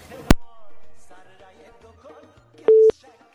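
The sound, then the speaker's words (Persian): A telephone line tone after a call is cut off: a sharp click, then quiet, then a single short, steady mid-pitched beep near the end. “بله فکر میکنم تماسشان قطع شده.”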